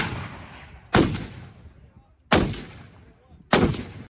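Three sharp blasts from a high-powered rifle ring out, evenly spaced, each a loud crack followed by a decaying rumbling tail.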